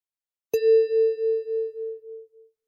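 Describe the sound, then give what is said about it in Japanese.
A single chime struck once during a school English listening exam. It rings a clear mid-pitched tone that decays over about two seconds with a gentle pulsing waver. “理科が二度目に発言する部分で次のチャイムを鳴らします。”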